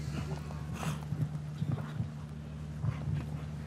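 Galloping hoofbeats of a show-jumping horse on course, heavy irregular thuds coming in quick clusters over a steady low hum.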